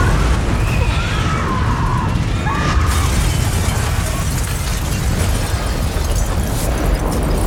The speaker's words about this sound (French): une énorme explosion secoue la capitale argentine, des images terrifiantes filmées par un habitant de la ville.